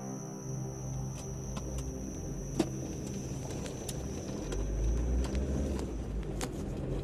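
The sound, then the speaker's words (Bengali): A car drives at night from the brightly lit streets of New Town onto a village road. Its engine gives a quiet, steady low rumble under a faint high whine, with a few soft clicks. “নিউটাউনের ঝাঁ চকচকে আলোখচিত রাস্তা পেরিয়ে গ্রাম্য রাস্তায় ঢুকলো অমরেশরা গাড়ি চালাচ্ছে শ্যামল”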